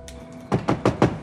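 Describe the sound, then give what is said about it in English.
Four quick, hollow knocks on a bedroom window, evenly spaced in a short burst after a brief quiet stretch. No voices. “She looks up to see Zig knocking on the window.”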